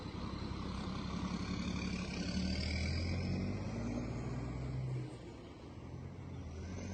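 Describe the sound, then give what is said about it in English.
Buses drive out one after another in Darien, producing a steady, heavy low engine rumble that stays loud and even, then drops somewhat in level partway through. “So that's bus number 9. Slow getting out. There's number 10.”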